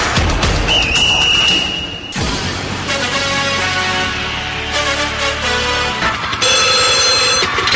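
A telephone ringing in bright, loud electronic tones, set among dense musical sounds that change abruptly partway through. No voices are heard.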